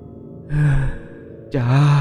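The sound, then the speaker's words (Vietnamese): Eerie, drawn-out moaning wails come over a telephone line: two sustained, ghostly cries with a short gap between them, the second starting with a wavering swoop before holding steady. “Từ đầu dây bên kia, cái tiếng khóc não nùng lại vang lên, kèm theo tiếng rên chối tai rùng rợn”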